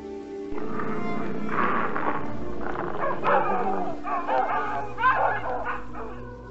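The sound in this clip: Dogs bark and yip in a rapid, overlapping run of sharp barks mixed with whimpering yelps, fairly loud and continuous throughout.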